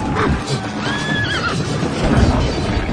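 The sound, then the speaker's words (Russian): A horse whinnies over dense, loud battle noise in a film scene where a rider's horse is brought down with spears during a Mongol battle. Heavy hoof thuds sound beneath the high, wavering neigh. “У Джамухи рогатинами валят коня на землю, он сам тоже падает, нога запутывается в стремени.”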